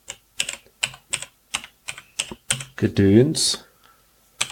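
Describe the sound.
Someone types a startup message into a device on a computer keyboard, making evenly spaced, crisp key clicks. A voice cuts in briefly partway through, and one more keystroke follows after a pause.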